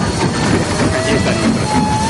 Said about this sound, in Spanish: Watson y Mary llegan a la estación de tren y entran al andén